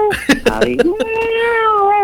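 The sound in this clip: A person imitates a cat's meow, with a few quick voiced syllables followed by a long, drawn-out, nasal meow that holds steady and then sinks slightly in pitch, loud and close.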